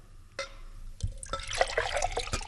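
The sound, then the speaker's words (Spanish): A water sound effect imitates liquid pouring, first with a few separate drips, then a busy stream of splashy, bubbling gurgles that grows denser and louder toward the end. “voy a hacer el efecto del agua que tanto me gusta”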